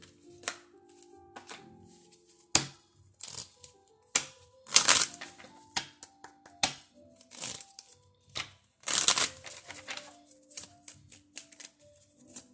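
A deck of goddess oracle cards is shuffled by hand: many quiet, irregular, crisp riffles and papery taps come in uneven clusters, with no voice over them.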